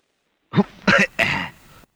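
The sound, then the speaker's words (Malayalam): Three short, harsh coughs, the first sharp and the next two rougher and longer, like throat clearing, sounding alone in silence. “ഓ എന്താ ഒരു കണിയാന്റെ ചുമ?”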